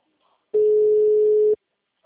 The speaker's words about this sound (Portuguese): Tá chamando, mas ele não vai atender, não.